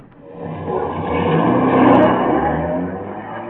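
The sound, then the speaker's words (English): A taxi's engine revs as the car drives off on a California street, swelling to a loud peak near the middle and then easing slightly into a steady rumble. No one speaks. “what are you doing driving a taxi? I'll tell you later, Bob. Get in.”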